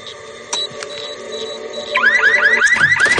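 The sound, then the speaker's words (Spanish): An electronic alarm set off by stepping on a hidden alarm at a house's front door: steady tones at first, then a loud, rapid series of rising whooping sweeps that keeps repeating. “Rosy pisa una alarma oculta”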